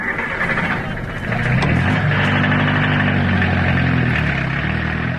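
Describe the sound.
A taxi car's engine running with a steady low droning hum and a firm idle throb, shifting slightly in tone before settling into a constant rumble.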